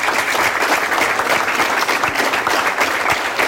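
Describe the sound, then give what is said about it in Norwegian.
A concert audience gives a big round of applause for choir and school band conductors, with dense, continuous clapping holding at a steady, full level throughout. “Vi gir dem en stor applaus, alle sammen.”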